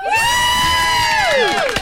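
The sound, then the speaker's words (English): A studio audience cheering sound effect: a single long whoop held at a steady pitch, then dropping away, over a faint crowd bed, lasting under two seconds. “If only we had a live studio audience and we could actually give Beck the congratulations that she deserves, imagine it would sound something like this.”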